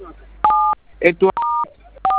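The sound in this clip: Three short electronic telephone keypad tones entering a code, each a steady two-note beep, with a brief burst of a person's voice between the first and second tones.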